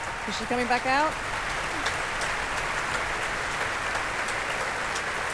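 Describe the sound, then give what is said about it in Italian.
A Proms audience at the Royal Albert Hall applauds for an encore with steady, dense clapping that never lets up, and a voice is briefly heard near the start. “Il pubblico reclama l'ultima canzone.”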